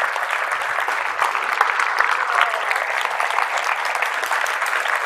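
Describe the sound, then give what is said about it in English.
A standing church audience claps in a dense, continuous wash of many hands. The bright applause stays loud and even throughout, with occasional sharper claps standing out. “Stay standing and stay clapping.”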